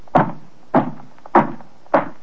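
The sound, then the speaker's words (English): Knocking at a door: four heavy, hollow wooden thuds in a slow, steady rhythm, each struck firmly and then fading quickly, with no voices. “Pauline, her heart pounding with fear, goes to the door.”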